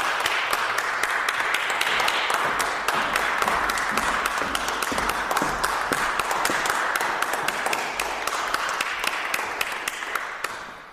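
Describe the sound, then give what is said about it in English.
Sustained concert applause welcoming classical guitarist Ana Vidović to the stage in San Francisco. Dense, even clapping from the audience continues for about ten seconds and tapers slightly at the end. “And now, please help me welcome to the stage, Anna Vidović.”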